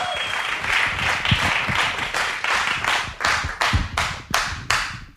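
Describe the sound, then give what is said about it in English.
A live audience claps and applauds for the host at a live show in a recording studio. Dense applause settles into loud, unified rhythmic claps toward the end. “Yo, one time, y'all, give it up for Combat Jack.”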